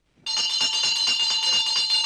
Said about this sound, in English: She rings a crystal bell.